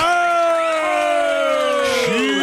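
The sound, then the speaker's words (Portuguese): Loud, sustained audience cheering and whooping for two police chiefs at a live event, full of overlapping voiced cries that glide downward in pitch. “Palmas para o delegado Nico e a delegada Lisandra Salvariego.”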